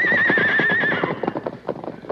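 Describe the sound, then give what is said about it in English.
Freshly unhitched horses neigh and clop away as they are driven off: a long, wavering whinny opens, then a run of hollow hoof clip-clops continues on its own. “Meanwhile, Dirk finished unhitching the horses. Get going. You two get along there.”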